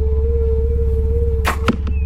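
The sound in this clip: Arrow shot from a bow: a low, steady hum gives way to a few sharp, whooshing snaps near the end.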